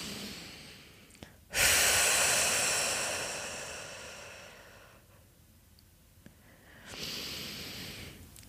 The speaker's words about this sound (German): Denk dran, wenn du durch den Mund ausatmest, dann lass gerne den Ausatmen mal richtig lang werden und atme dich richtig leer.